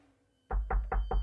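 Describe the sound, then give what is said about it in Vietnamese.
Four quick, evenly spaced knocks on a door, firm and dull, ringing out alone after a moment of near silence. “Thấy lạ, nhưng Thanh vẫn còn gõ cửa mà nói.”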